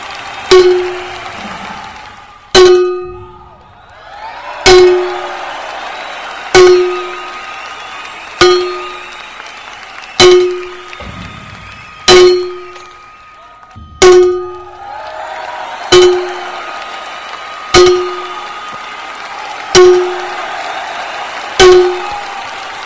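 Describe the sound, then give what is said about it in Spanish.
Bells ring out the New Year's Eve midnight chimes in a long series of loud, evenly spaced strikes about two seconds apart, each clang ringing on and fading before the next. “vamos con las dos de campanadas patrocinadas por Prado Rey.”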